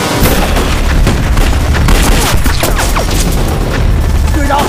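Heavy gunfire in a battle, loud and continuous, with dense overlapping shots and deep booms packed throughout.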